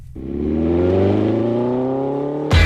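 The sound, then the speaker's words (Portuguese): An off-road buggy engine revs during a buggy outing through mud and dust in Arouca. The loud droning rev holds a fairly steady pitch, then a sudden harsh burst cuts in at the end. “Acelerar na lama e no pó, andar aos saltos sobre rodas e lavar a vista. É o Buggy Experience organizado pela Naturway.”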